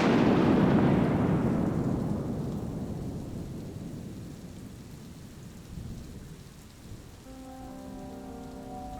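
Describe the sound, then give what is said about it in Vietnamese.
Rolling thunder opens loudly amid steady rain and fades slowly over several seconds into the pattering downpour, while sustained steady tones enter near the end. “Sau lưng ông, sấm chớp chói lòa.”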